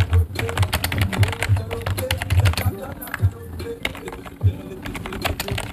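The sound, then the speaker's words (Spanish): Keyboard typing during a Google search: rapid, irregular clicks and clacks of keys, moderately loud and continuous. “estoy buscando en Google. Es difícil teclear con el micrófono en la mano.”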